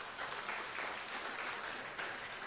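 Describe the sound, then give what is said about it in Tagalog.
A church audience applauding during a sermon: steady, even clapping from many hands, fairly soft and sustained for the whole stretch without breaks. “Palakpakan po natin ng Panginoon.”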